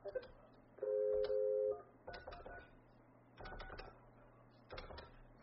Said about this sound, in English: let me just dial her on there and put him back on